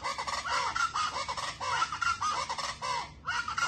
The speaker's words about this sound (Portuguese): que é o araquã de ventre ruivo, que é esse som que a gente está ouvindo agora.